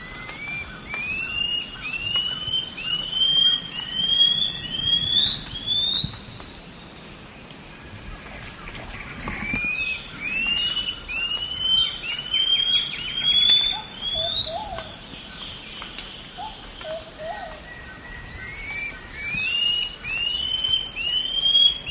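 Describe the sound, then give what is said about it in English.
A scale-backed antbird sings three phrases of rapid, thin whistled notes. Each phrase climbs steadily in pitch and is separated from the next by short pauses, against a soft background hiss. “Scale-backed ant bird.”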